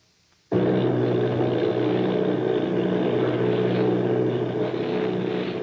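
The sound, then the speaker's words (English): Droning propeller engines of a formation of eight army bombers off Bayonne, New Jersey. The steady, loud, dense drone cuts in abruptly after a brief quiet moment and holds evenly to the end. “Army bombing plane V-843 off Bayonne, New Jersey.”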